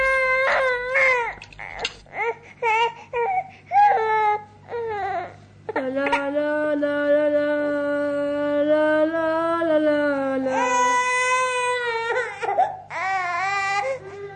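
An infant and a young boy crying while the boy carries the baby around a room: broken, choppy sobs at first, then a long sustained wail, with a second higher-pitched cry overlapping near the end.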